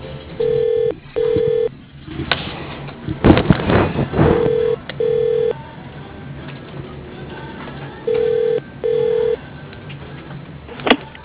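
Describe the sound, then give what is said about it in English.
Telephone ringback tone sounds while a caller waits for a company's operator: three steady double-ring pairs at even intervals, with soft rustling noise between them. “If you know your party's extension, please enter it now or dial 0 for immediate assistance. Calling the operator.”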